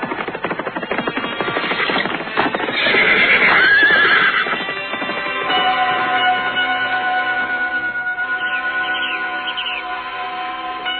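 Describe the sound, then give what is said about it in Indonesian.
Horses neigh as riders travel on horseback, hooves clip-clopping steadily throughout, with a loud, drawn-out whinny rising above the hoof beats in the first half. “Ternyata orang-orang yang tengah berkuda itu tak lain adalah Anting Wulan, Saka Palwakuna dan Kisemu.”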